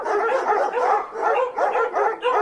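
Dogs barking in a loud, continuous run of many quick, overlapping barks and yips, heard alone without talk.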